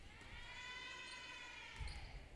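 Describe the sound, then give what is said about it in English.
A few faint, low thumps from a basketball being dribbled before a free throw at a girls' high school game. The bounces sit under a steady, high-pitched whine in a quiet background. “Couple of dribbles, second free throw up”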